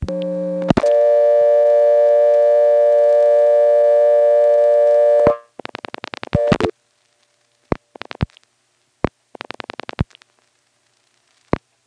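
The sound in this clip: Telephone exchange tones while dialing 5299, a working number in a 5000 group: a short lower tone, then a loud steady dial tone for several seconds, followed by bursts of rapid dialing pulses and scattered sharp clicks.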